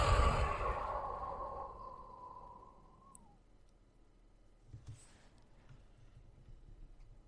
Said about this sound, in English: Deep breath in. Long breath out.